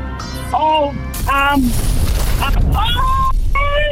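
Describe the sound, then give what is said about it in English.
A bomb explosion sound effect goes off during a radio quiz: a sudden broad, noisy roar that lasts over a second and sits amid voices and tonal sounds. “There goes the bomb.”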